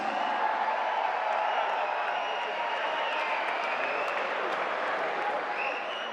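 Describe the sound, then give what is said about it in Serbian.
Audience applause greets a singer at a tavern-style music evening. Dense, even clapping fills the whole stretch at a steady level and fades only slightly toward the end. “i zato ću zamoliti vas da je pozdravimo najvećim aplauzom”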